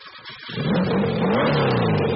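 A 1972 Porsche's internal combustion engine revving, building from a quiet idle into a loud, sustained roar in about half a second and holding there, with no voices.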